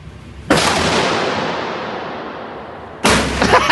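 A gigantic pistol is fired twice. Each shot is a loud, heavy boom, and the first leaves a long rumbling tail that slowly fades before the second blast cuts in.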